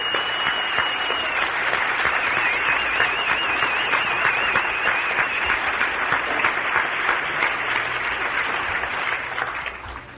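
An audience applauds the Sons of the Pioneers and their families with sustained, dense clapping at a steady level that eases off in the last couple of seconds.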